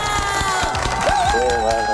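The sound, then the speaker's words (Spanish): A group of fans claps and cheers with sharp, quick claps. A wavering shout rises among the mixed voices, and the noise stays loud and continuous. “¿Será que mi barra está por acá para que le aplaudamos a Robert? ¡Sí está!”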